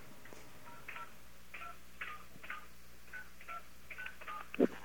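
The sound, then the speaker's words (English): Telephone dialing tones as a number is entered to call an airline: a series of short, faint beeping key tones at an uneven pace over a low hum, with no talk. “Okay, I'm going to call British Airways.”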